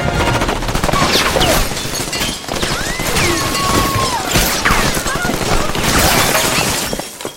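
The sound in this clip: Bursts of gunfire laid down as cover fire, mixed with shattering and breaking crashes in a dense, continuous wash of loud noise that fills the whole stretch, with voices in the mix.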